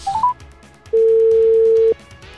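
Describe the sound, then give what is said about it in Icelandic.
Telephone keypad tones as a number is dialed: a few quick beeps at the start, then one long, steady tone held for about a second against faint background noise. “en í síman fer ég og hringi Þóraldan”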